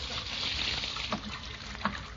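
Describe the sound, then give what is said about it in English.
Running water as someone washes their hands, a continuous soft hiss of flowing water broken by a couple of small splashes. “Leroy, what are you doing in there? I'm washing my hands.”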